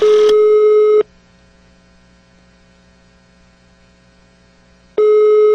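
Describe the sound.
Telephone ringback tone while placing a call: two loud, steady, flat tone bursts about a second long, separated by roughly four seconds of low hum, with no voices.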